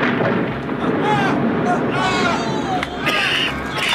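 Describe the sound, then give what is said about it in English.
Explosion blasting a hole in the fortress wall of the Horned Burg, a heavy, sustained rumbling roar mixed with crowd clamour. “What is it? What's happening? The enemy have blasted a hole in the wall. Some devilry of Saruman's, I fancy.”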